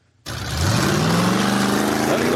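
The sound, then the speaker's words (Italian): The engine of a red Fiat Panda car roars: after a brief silence it bursts in loudly and holds a rough, steady drone, its pitch climbing gradually as it revs. “Lo riconoscete questo rombo? È la famosa panda della Magliana.”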